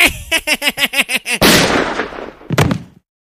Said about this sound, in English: You shot him, Colt.